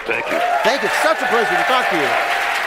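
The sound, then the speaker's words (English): A studio audience applauds with steady, continuous clapping underneath a person speaking. “the strange noises you hear in the background are what we used to call laughter and applause.”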